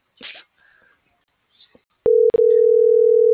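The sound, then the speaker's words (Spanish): A telephone dial tone sounds while another number is being called: a steady, low, continuous hum with one brief gap. It starts after a few faint, short murmurs. “le estoy marcando otro, güey.”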